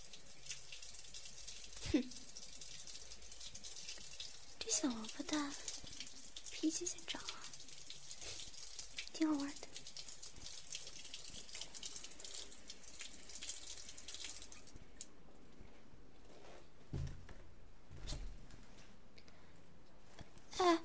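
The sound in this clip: Shower water running as a steady, loud hiss that cuts off near the end, leaving quiet with a few faint knocks.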